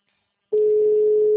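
A telephone line tone as a call is placed from a mobile phone: after a brief silence, a single steady, loud pure tone starts and holds unbroken to the end.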